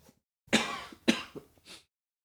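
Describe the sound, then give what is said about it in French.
A choking coughing fit: four harsh coughs in quick succession, the first two strongest and the last weaker, with silence before and after. “Pardon, je m'étouffe.”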